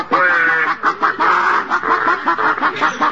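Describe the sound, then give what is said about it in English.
People imitate chickens with their voices, clucking in a chicken coop in a rapid, uneven string of short nasal bursts with no other talk. “Day and night, we sat on two nests disguised as chickens. One night, as we sat there in the dark clucking,”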